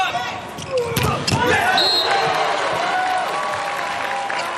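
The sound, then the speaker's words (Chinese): A volleyball serve is struck during a match, a single sharp slap of the ball. A crowd murmurs and cheers loudly around it, and a commentator talks throughout. “好发球，”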